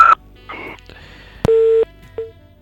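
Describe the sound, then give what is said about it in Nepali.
Telephone tones sound while a dropped phone line is being reconnected: a few short electronic tones and bleeps, then one longer steady beep and a final short beep, with quiet gaps between them. “उहाँसँगको telephone सम्पर्क टुटेको छ हाम्रो प्राविधिक मित्रले उहाँसँगको telephone सम्पर्कलाई पुनः जोड्ने प्रयास गर्दै हुनुहुन्छ”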